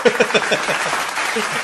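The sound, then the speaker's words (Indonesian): Brief applause, a short run of quick claps lasting under two seconds. “Saya bagi tepukan dulu, Bang.”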